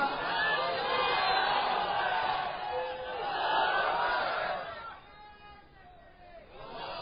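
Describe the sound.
A crowd at a religious sermon shouts a slogan in unison, loud and roaring, with a second swell of voices. The chant then dies down to quieter murmuring as a single voice carries on.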